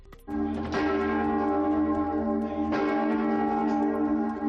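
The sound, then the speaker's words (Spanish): Mallorca Cathedral's great bell, rung by six people, tolls a death knell for Pope Francis: a few heavy strikes, each followed by a long, rich ringing hum with layered overtones that sustains at full loudness between blows. “La Catedral de Mallorca tocaba ayer al mediodía a muerte para anunciar el fallecimiento del Papa Francisco.”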